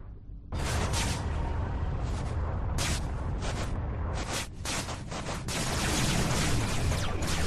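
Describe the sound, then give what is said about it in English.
Gunfire in a video game: a loud, dense barrage of shots and booming blasts starts after a brief quieter moment and continues almost without pause for several seconds. “Oh, no, you're getting shot at me. That's why you quit talking. Totally getting shot at.”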